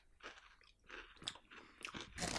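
Crunchy steak-and-onion flavoured chips being eaten, with a string of crisp, loud crunching bites and chewing bursts that come in quick succession and grow sharper toward the end, with no talking.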